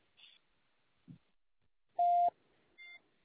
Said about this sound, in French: Merci de laisser un message après le signal sonore.